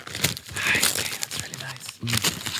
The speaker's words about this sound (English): Just rip it, just rip it. I'm doing ASMR.